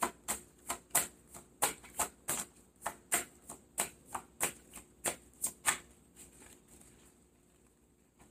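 Playing cards are handled and pushed into place, making a rapid series of crisp, sharp snaps in a quick, fairly even rhythm that stops partway through, leaving a faint rustle and near silence.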